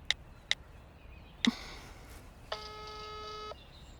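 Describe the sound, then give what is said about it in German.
Telephone keypad tones as someone dials to return a call. Three short, bright beeps come at uneven intervals, followed by a steadier, buzzing tone lasting about a second. All of it is faint over a quiet background. “Eine Nachricht von Lukas und Johanna. Sie wollen wissen, was los ist. Ich rufe kurz zurück.”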